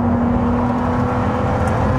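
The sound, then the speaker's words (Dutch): Ferrari 296 Speciale sports car driving, heard as a loud, steady engine and road drone with a constant humming tone running underneath, no voices. “Maar eerst de rijimpressie. Wouter test de Ferrari 296 Speciale.”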